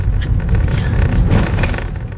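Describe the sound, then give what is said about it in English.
A car drives along a quiet residential street, making a loud, steady low rumble of engine and road noise with no distinct separate events. “I'm driving with Alejandra to the house now. As we arrive in the quiet street”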